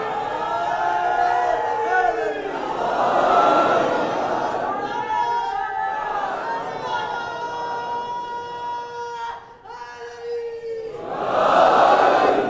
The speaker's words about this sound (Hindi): फिर से तीनों नारे लगाओ, तुम्हारी आवाज दब गई।